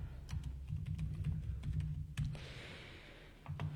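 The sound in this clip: Typing on a computer keyboard: a rapid, steady run of light keystrokes that pauses briefly, then resumes with a few more taps.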